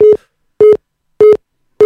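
A telephone busy signal on a call-in line: four loud, steady beeps of equal pitch, evenly spaced in a regular on-off rhythm, with no voices.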